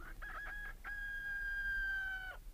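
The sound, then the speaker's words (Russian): Rooster crowing: a few short, choppy notes lead into one long, sustained, strongly tonal crow that holds steady and then drops off at the end. A low rumble runs underneath. “Петухи кричат.”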